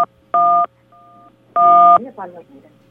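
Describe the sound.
Touch-tone keypad beeps from a caller accidentally pressing on their phone during a call: two loud tones with a fainter one between them, followed by a brief voice.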